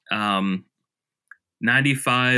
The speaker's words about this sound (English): So it's just basically like, let's see, I'll just click it right now.